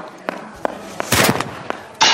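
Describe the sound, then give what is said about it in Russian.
Gunfire from a Browning pistol shot by a woman running and firing without aiming: several sharp cracks at irregular spacing, a denser noisy burst midway, then a loud sustained blast to close. “Дама побежала, стреляя на ходу, не целясь.”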